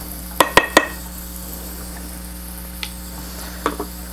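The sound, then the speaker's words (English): Wooden rice paddle loosening cooked rice around the edges of a rice pot: three quick, bright clinks and scrapes in a row, then a couple of fainter taps, over a steady low hum. “use it to gently loosen around the edges of the rice pot so that it makes it easier to get the rice out.”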